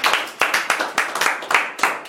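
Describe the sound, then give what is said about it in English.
A church audience claps hands in praise during an evening service: many sharp, loud claps in a steady, driving rhythm, each crisp slap quickly following the last without pause. “Let's give the Lord a hand clap of praise tonight.”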